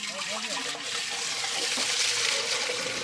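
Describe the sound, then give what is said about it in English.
Twenty litres of milk being poured through muslin into a cauldron gives a steady, continuous rushing splash of liquid that holds at an even loudness throughout without pause. “this is the sound of me pouring 20 litres of milk through the muslin and into the cauldron below.”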